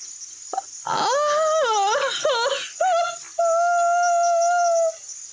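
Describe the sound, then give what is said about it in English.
A long wail at night near a pond: a tonal, moaning cry that bends up and down in pitch over several short phrases, then holds one steady, sustained note before cutting off. “And as you prepare for sleep, you hear a long wail.”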